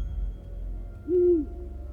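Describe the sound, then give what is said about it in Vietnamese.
An owl perched on a tree branch near a bush gives a single steady, low hoot, rounded and sustained, sounding alone over a faint low background hum. “Lúc chú ấy định lại gần thì một con kia chim cú mèo lại rúc lên một tiếng ở trên cành cây gần đó.”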